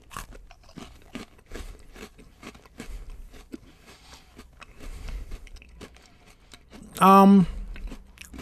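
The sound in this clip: Cherry Cola Oreo cookies with popping candy being eaten: crunchy bites and chewing with faint crackles under ongoing talk, and a brief loud vocal burst near the end.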